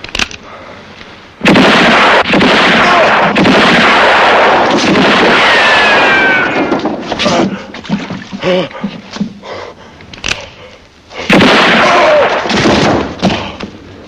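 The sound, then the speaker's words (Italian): Pistol gunshots ring out as a few loud, sharp blasts with long, rumbling decays. Between the two loud bursts comes a quieter stretch of scattered thumps. “Quando si spara, non si parla. Ogni pistola ha la sua voce. E questa la conosco.”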